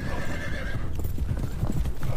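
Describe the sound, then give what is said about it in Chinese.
Many horses' hooves clatter as horses gather in a mountain pass, with a whinny early on; dense, loud, rhythmic thudding runs steadily through. “成吉思汗将全部马匹集中在野狐岭主要通道黑风口，马蹄扬起漫天尘土”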